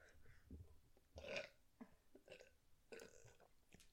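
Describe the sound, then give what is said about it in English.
A woman lets out a few faint burps while drinking during a movie drink-along. The short, throaty bursts come in quick succession, irregular and quiet, with no talk over them. “They 100% heard the burps. Again, genuine proof that we are drinking.”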